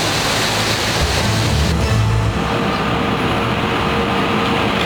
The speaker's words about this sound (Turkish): Denizli'yi de sağanak vurdu. Şiddetli yağış cadde ve sokakları göle çevirirken Denizli-İzmir karayolunun bir bölümü de ulaşıma kapandı.